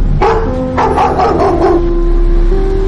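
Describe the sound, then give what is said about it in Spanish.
Aggressive dog barking outside a stone house: several sharp barks in a quick cluster, then silence over a steady low background hum. “Un perro agresivo ladra fuera de una casa de piedra.”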